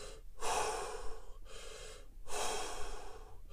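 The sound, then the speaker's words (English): Forceful breathing exercise: a few long, loud rushing breaths in and out, drawn deep into the stomach and pushed hard, with brief quiet gaps between them. No talk. “like hard, hard in and out, like as hard as you can, not as hard as you can, but just kind of feel. Do it in your breathe into your stomach.”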